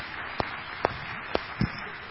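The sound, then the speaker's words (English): Hand claps of praise to the Lord during a church service: four sharp, separate claps spaced out over about two seconds, standing above a low, quiet background. “Can we give the Lord just a hand clap of praise?”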